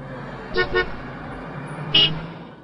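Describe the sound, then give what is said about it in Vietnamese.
Car horns honk on a busy road: a quick double toot, then a single toot, over a steady low rumble of traffic. “Trên đường, tiếng còi ô tô ầm ĩ.”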